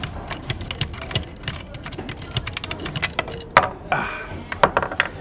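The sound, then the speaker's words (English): At a nuts and bolts exhibit in a children's museum, a bolt is worked off with continuous bright metallic clinking and rattling, many quick clicks and clanks in an irregular flurry. “Here's a nuts and bolts exhibit. That's right. Try and get this bolt off here.”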